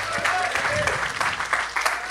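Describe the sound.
Audience cheering for a band after its set, with lively clapping and scattered shouts that stay loud throughout.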